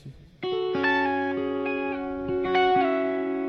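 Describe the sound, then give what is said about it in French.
Reverb-soaked music: layered, sustained tonal notes enter after a brief quiet start and ring on with a wide, shimmering wash of effect, fairly loud and steady, with new pitches stepping in over the top. “Par contre, la reverb est pas extraordinaire.”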